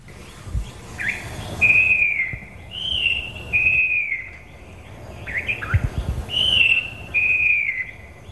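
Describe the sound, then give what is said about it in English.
A falcated wren babbler sings on a digitized cassette-tape recording: loud, clear whistled notes, mostly long level tones with a few short slurred ones, in separate phrases with low thumps beneath. “A loud song throughout the cuts coming from the falcated wren babbler”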